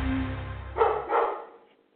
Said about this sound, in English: Mary Petite, and her barking dog in the background, because we really are at the kitchen table